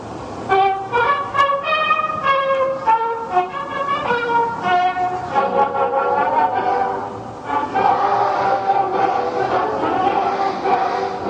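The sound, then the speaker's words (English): School children practicing the national anthem for a ceremony welcoming a visiting guest: many young voices sing in unison, a loud, steady choral melody of held notes that continues throughout. “turned up with this track of a bunch of school children practicing for it. I think it's a special event that somebody's coming to the school, so they have to have this ceremony to welcome the guest, the visitor. So they're practicing the national anthem.”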